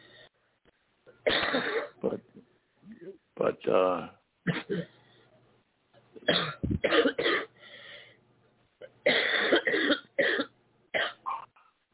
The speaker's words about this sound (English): seems like you have a cough